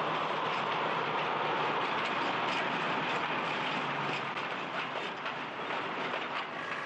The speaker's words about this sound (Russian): Не снижая хода, проходит тепловоз с прицепом платформой, груженной керамическими изоляторами.